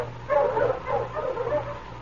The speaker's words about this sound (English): Mush, you huskies! Mush!